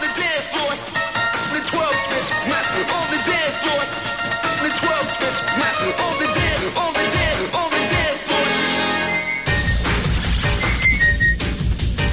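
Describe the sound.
A person whistles a tune, a steady, continuous melody that runs the whole way through over other dense musical sounds.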